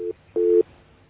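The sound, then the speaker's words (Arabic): A busy signal sounds after a phone call is cut off: two low, steady beeps of the same pitch, the first clipped short at the start and the second about a quarter second long, with no voices. “طيب انقطع الاتصال.”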